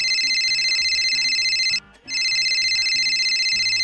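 A high, continuous electronic ringing tone sounds on an outgoing phone call and breaks off once for a short gap. Low rhythmic tones pulse beneath it throughout.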